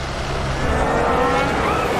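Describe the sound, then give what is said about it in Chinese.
Formula 1 cars race on the opening lap, including two McLarens, producing a loud, continuous engine roar with a high whining tone throughout. “这个是这个维斯塔潘、勒克莱尔和安东内利两台迈凯伦这个出场圈第一圈的比赛第一圈的这个争夺”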